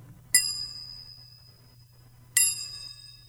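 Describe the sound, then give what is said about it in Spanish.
Two small hand cymbals are struck together twice with a dry hit, about two seconds apart. Each strike gives a bright, high metallic clink that rings out and fades slowly, over a faint low hum. “Mira, ¿qué tengo en mis manos? Parecen dos platitos. Se llaman chinchines, ¿eh?”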